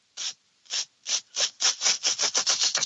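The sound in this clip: Raspy chirps of a wart-biter bush cricket stridulating by rubbing its legs against its abdomen: about eleven dry, scraping bursts that come faster and closer together as the sequence goes on, sounding alone.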